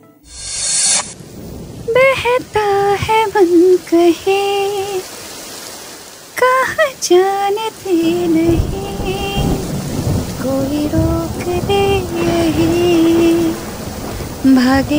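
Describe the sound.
Heavy rain pours outside a stopped car in a steady, loud hiss, with rumbles of thunder, while a voice hums a tune over it.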